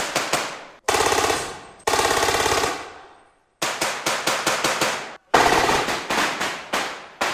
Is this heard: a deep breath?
no